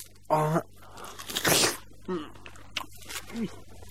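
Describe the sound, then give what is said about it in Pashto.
A crunchy bite into a melon: one loud, crisp crunch stands out in the middle, with people talking before and after it. “ته واخله دا خټکی وخوره چې د ژوند په خوند پوه شي وروره.”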